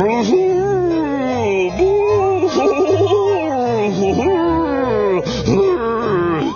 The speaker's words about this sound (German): Das Vampirgeschöpf im schwarzen Umhang rauscht aus der Truhe heraus, fletscht seine spitzen Zähne und gibt ein gräuliches Heulen von sich.